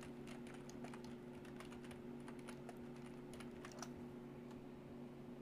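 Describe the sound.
Fingers typing a search query on a computer keyboard: rapid, irregular key clicks with brief pauses, running steadily over a low, constant electrical hum.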